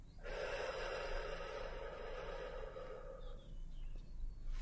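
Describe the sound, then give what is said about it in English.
A long, deep breath drawn steadily during a soft-spoken medical check-up, breathy and sustained for a few seconds with no talk. “And once more, breathing in and out.”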